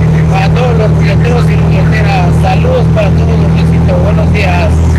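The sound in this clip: A truck engine drones steadily and low while driving on a highway in Chiapas, a constant rumble that lasts the whole clip under a talking voice.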